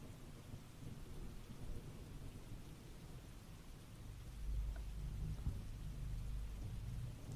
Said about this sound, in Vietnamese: Bữa nay tụi mình quyết định để tiếng mưa làm cho nó mới mới nghe. Có cả tiếng sấm nữa các bạn.